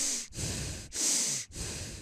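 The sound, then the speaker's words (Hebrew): Connected breathing with no pause between inhale and exhale: loud, airy breaths run together in a steady rhythm, about four strokes separated only by brief dips, with no talking. “זה הסבב השלישי. אז כמו שאתם רואים, הנשימה הזאת היא נשימה מחוברת, בלי הפסקה בין השאיפה לנשיפה.”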